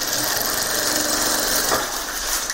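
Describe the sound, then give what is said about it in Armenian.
A sewing machine runs with a loud, steady clatter and whir in a cramped apartment, unbroken for the whole stretch and with no voices over it. “որտեղ ավելի շատ կարի մեքենայի չխչխկոցն է լսվում։”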